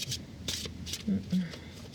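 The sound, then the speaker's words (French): Shuffling of a deck of spiritual guidance cards before one is drawn: a few soft, papery riffling bursts beneath a speaking voice. “est-ce que tu veux bien nous tirer une carte pour nous, pour ce podcast, pour Strange Land, pour les auditeuristes de Strange Land pour euh, nous guider.”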